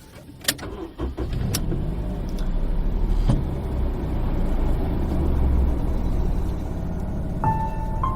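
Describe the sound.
A car drives with a steady, loud road and engine rumble throughout. A few sharp clicks come near the start, and a short electronic tone sounds near the end.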